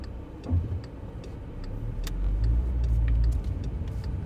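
A low engine rumble from a Porsche driving behind swells through the middle and then eases slightly, a steady road-car drone with no talk.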